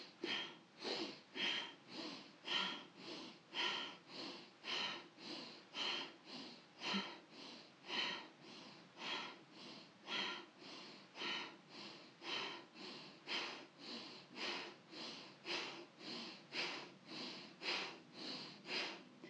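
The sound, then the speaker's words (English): Rhythmic breathing during a prana vayu meditation, many short sniffing breaths repeating in a steady, even pulse for the whole stretch, quiet and without any talk. “Inhale, exhale.”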